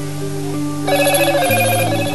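A telephone rings with a warbling electronic trill of rapidly repeated pulses. It starts partway through, over a steady low tonal background, and stays fairly loud to the end.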